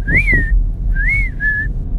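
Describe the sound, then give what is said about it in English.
Whistling to call a dog: three clear, loud whistled notes with no talk. The first two rise and then fall, and the last holds a level pitch. “I have a little special whistle for him. It sounds like this.”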